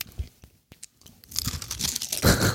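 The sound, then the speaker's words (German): Crunching of organic caramel wafers from Spar Natur pur being bitten and chewed. A few soft clicks come first, then dense, loud, crisp crunching fills the second half, with no talk. “Wir essen da gerade die Bio-Caramel-Waffeln vom Spar Naturpur.”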